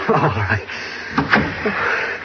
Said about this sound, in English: Don't you think we ought to close the door?